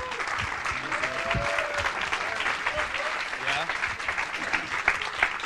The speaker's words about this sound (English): Come on, let's give him a big hand.